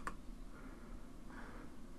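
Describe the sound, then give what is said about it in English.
A single mouse click on the Next button of a software installer page: one short, sharp tick right at the start, then only quiet background hiss. “Having logged in, I need to click Next on the Before You Begin page.”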